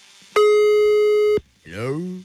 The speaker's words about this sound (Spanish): Una vez más la voy a marcar.